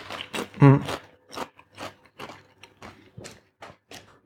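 Crisp, rhythmic crunching of Hungarian-style paprika-flavoured potato chips being chewed, with many short bursts and one loud bite near the start, then steadier, fainter crunches, heard alone without talk.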